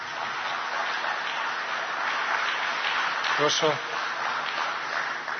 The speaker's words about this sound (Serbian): Molim vas, jedan veliki aplauz, hvala vam.